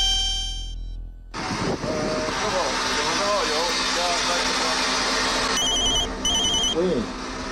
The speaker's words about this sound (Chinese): 手机虽方便，但不要让这铃声影响您的形象。